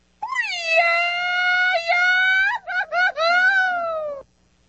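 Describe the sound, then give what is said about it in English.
A man's shouted mariachi grito: a long, high, held wail, then two short broken yelps, then a final sustained cry that fades out, with no other sound around it. “I want him one more time to give you the mariachi call before you go.”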